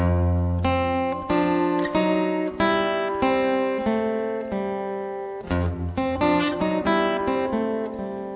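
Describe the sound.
Acoustic guitar plays an F chord passage, with fretted notes reaching up to the fourth fret. Plucked notes ring and decay in a steady rhythm through a short picked phrase, with no talking.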